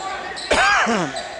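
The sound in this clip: A basketball is dribbled on a court during a tied game near the end of the first half, with one firm bounce standing out against steady background noise.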